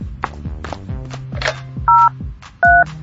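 Telephone keypad tones as someone dials an ambulance: two loud, steady, short dual-tone beeps, each held for a moment, after softer tonal sounds.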